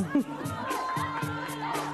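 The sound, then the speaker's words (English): A crowd shouts and cheers on contestants racing to pull frozen T-shirts over their heads, with excited voices and chatter overlapping in a busy, uneven mix. “All right, let's cheer them on in 3, 2, 1, thaw!”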